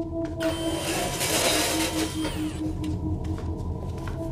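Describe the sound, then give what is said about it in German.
Roller blinds being lowered, a mechanical whirring rattle that runs for about two seconds before thinning out into faint ticks and clicks. “Achtung, ich lasse jetzt die Rollos herunter.”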